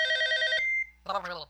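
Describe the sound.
A telephone rings just before an answering machine picks up: a bright electronic ring of about half a second cuts off, and after a brief gap a voice begins.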